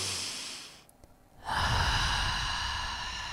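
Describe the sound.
Deep breathing through the nostrils during a guided breathing exercise: an airy rush of breath, a brief quiet pause, then a louder, sustained flow of air, with no talk.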